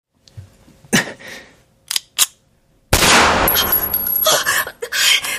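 Gunshots ring out at an indoor shooting range: a few sharp, separate bangs, then a loud, dense stretch of rapid shots and ringing clatter to the end.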